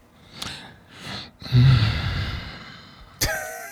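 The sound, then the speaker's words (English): Heavy breathing from a person arriving at a group discussion: a few short breaths, then a long, loud exhale that slowly fades, ending with a sharp sniff. “Came in here breathing.”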